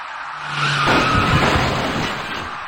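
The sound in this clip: Tires skid and squeal as a silver car turning right at an early-morning city intersection collides with a cyclist. The screech is loud and sustained, rising in the first second, then holding steady and easing slightly toward the end.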